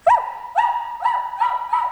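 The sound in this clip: A child's voice imitates a dog barking, giving five short, yelping woof-like barks at a fairly regular rhythm. Each bark is loud and high-pitched, with no other sound between them.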